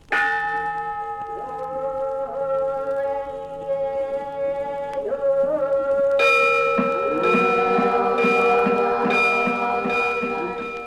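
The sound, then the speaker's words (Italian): Buddhist temple bells in an ancient Chinese temple setting ring with long, sustained, shimmering tones. A fresh strike comes near the midpoint, and several more follow in a steady rhythm over the lingering hum. “Nei templi dell'antica Cina, il canto e le campane dei monaci buddisti risvegliano sonorità misteriose.”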